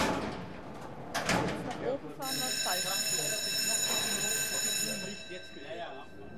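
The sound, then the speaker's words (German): The metal lattice gates of a mine shaft hoist cage shut with a clattering rattle. A steady, buzzing signal tone follows and holds for several seconds while a person talks. “Die Tore schließen sich.”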